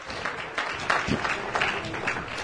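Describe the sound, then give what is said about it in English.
A church audience claps hands together in a brief burst of scattered, overlapping claps at moderate loudness, holding steady for a couple of seconds. “Clap your hands unto the Lord and then you may be seated.”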